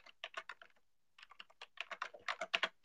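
Names being typed on a computer keyboard: a quick cluster of clicking keystrokes, a short pause, then a longer steady run of many taps.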